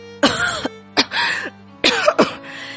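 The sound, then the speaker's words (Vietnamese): A man, a baron propping himself up, coughs in three harsh, raspy bouts, the middle one drawn out into a rougher double cough, over a faint steady low tone. “vị nam tước chống tay dậy và ho.”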